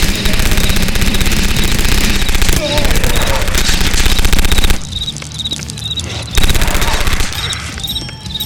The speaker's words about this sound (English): I have a machine gun, which I may use to clear out some real estate.